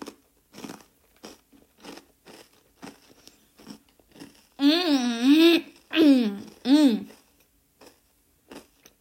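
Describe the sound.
Crunchy snack sticks being bitten and chewed: a steady series of sharp, dry crunches, briefly interrupted midway by a loud voice before the crunching resumes.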